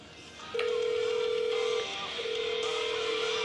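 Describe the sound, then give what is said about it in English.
A phone call being dialed: a steady electronic tone starts abruptly with a faint click, breaks off briefly, then resumes at a similar level to the end. “Alright, making a call.”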